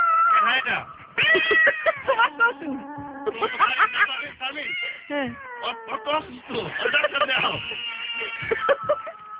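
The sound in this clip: A cat meows over and over, many loud, drawn-out, tonal meows with wavering pitch, some short and some stretched, in a nearly continuous run.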